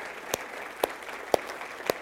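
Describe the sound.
Four sharp hand claps of an audience at a dinner event, applauding the volunteers. They land evenly spaced, each crisp and brief, over a faint background hush.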